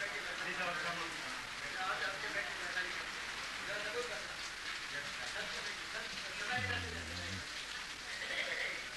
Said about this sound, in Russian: Дождь идет.